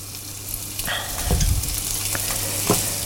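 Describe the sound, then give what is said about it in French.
Foie gras searing in a very hot frying pan gives a steady, bright sizzle with a few sharper crackles and spits rising out of it, and no voices. “Voilà, vous voyez l'eau, quand elle, quand elle est partie, c'est que la poêle est chaude. On peut mettre le foie gras.”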